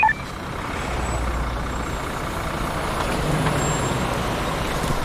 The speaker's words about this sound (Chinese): 来辆中巴，中巴，快！